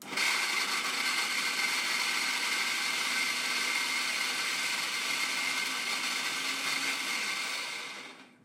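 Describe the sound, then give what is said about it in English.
A food mixer blends dough made with flour, herbs, lemon zest and olive oil, giving a steady, loud whirring hum that runs evenly for several seconds and then cuts off. “We'll give this a quick blend. It's going to be a bit noisy because yeah. we are putting on the mixer. I'll blend it first”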